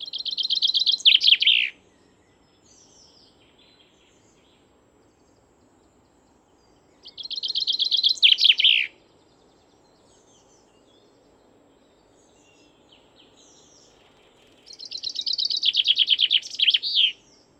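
Chaffinch song in three separate bright bursts of rapid high trilling, each about two seconds long and ending in a lower flourish, divided by long quiet gaps over a faint low background murmur.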